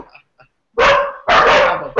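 A dog barks twice, with two loud, harsh, drawn-out barks in quick succession after a few faint small noises. No voices are heard.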